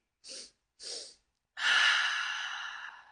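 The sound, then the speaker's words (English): Two short, sharp sniffs of air drawn through the nose, then one long, loud, airy exhale blown out through the mouth, as in a calming breathing exercise. “take 2 short inhales through your nose and then blow out in 1 long exhale and repeat as many times as it feels good”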